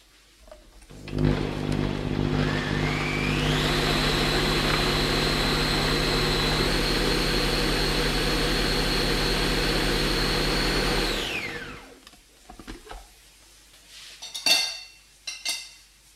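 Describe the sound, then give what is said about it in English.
A blender or food processor purees hummus until very smooth: a loud, steady motor whine rises at the start, holds for about nine seconds, then winds down, followed by a few faint clatters. “all you need to do is blend it until it's like a really, really smooth puree.”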